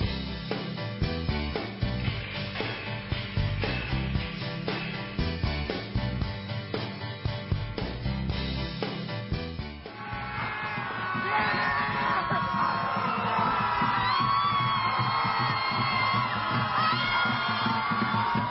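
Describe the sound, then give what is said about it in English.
A crowd celebrates an election result with loud yells and whoops, swelling into sustained screaming and cheering in the second half. “that was the sound of some crazy progressives celebrating the election of Donald Trump a year ago.”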